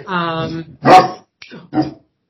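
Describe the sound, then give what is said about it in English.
A pet dog barks indoors. A longer, drawn-out vocal sound comes first, then a few sharp, loud barks with brief gaps between them. “I'm sorry, my dog is being a pain.”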